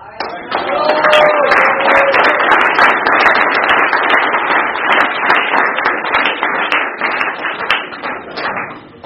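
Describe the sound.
Audience applause welcoming a guest speaker to a recovery meeting: many hands clapping in a dense, steady wash that holds for about nine seconds without a break.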